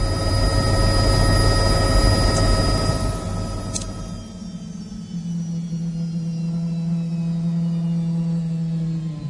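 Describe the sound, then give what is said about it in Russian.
A helicopter lands on a lawn in front of a house: a loud, steady rotor and engine drone with a thin tonal whine, which drops midway to a lower, smoother hum. “На лужайку перед домом Зенона опустился вертолет.”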